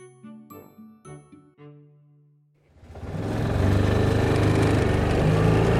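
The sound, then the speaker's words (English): An ATV engine on a ranch swells into a steady, throaty rumble after a few ringing chime tones, holding an even drone through the rest of the ride. “We're riding around in an ATV on a ranch with Tracy Latham.”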